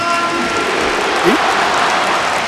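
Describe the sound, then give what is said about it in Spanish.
Stadium applause and ovation for a player at a football match, a loud, steady wash of crowd clapping and noise that fills the whole moment without pause. “Aplauso del estadio para Antoine. Ovación.”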